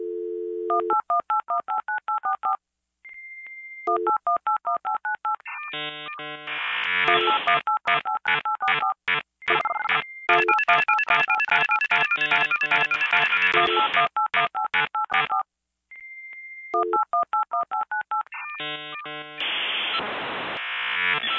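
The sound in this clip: A dial-up modem connecting: a brief low dial tone and quick touch-tone dialing beeps, then dense, harsh warbling and chirping handshake tones, another run of dialing beeps and a closing burst of hiss. It is loud, with no voices.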